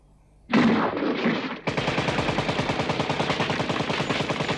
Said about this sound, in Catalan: Un d'ells continua disparant cap al sostre sense ni adonar-se'n.